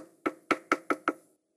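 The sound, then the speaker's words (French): Five sharp knocks on a door, evenly and quickly spaced, each a crisp rap alone against silence. “frappa à la porte”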